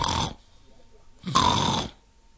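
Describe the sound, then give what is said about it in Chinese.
A voice imitates snoring while the person sits on a doorsill pretending to sleep, giving two drawn-out, raspy snores separated by a pause, the second one longer and louder. “小雨墨坐在门槛上也装着打呼噜”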